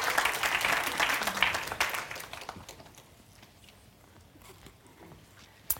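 Audience applause for the ladies at a church service: loud, dense clapping at first that fades away over a couple of seconds into near quiet.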